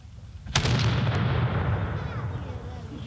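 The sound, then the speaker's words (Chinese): A 16th-century cannon fires one loud blast, followed by a long rolling rumble that slowly fades over the next few seconds. “而这一门是16世纪的火炮， 开火！”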